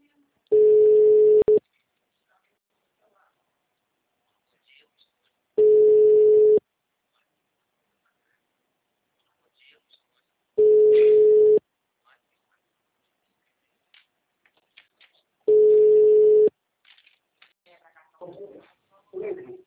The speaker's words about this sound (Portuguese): tô ligando pros caras desde cedo, não tô conseguindo. Agora chamando.